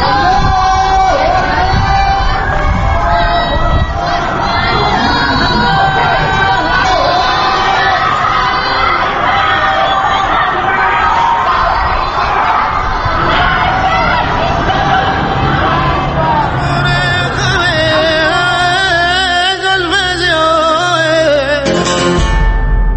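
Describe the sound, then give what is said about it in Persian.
Protest crowd shouting and chanting at night in Iran, a dense, loud and unbroken roar of many voices that holds steady throughout. “ساعت 10 شب به وقت ایران و این صدای اعتراض همچنان به گوش می رسد.”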